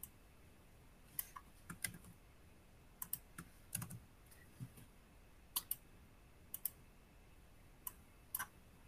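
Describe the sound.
Many quick, irregular clicks of typing on a computer keyboard, faint and uneven in rhythm, with short pauses between bursts of keystrokes and no talking.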